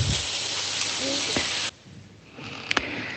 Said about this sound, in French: Je suis en train de cuisiner un steak, un steak énorme comme en Argentine parce que je suis un peu nostalgique de la parrilla.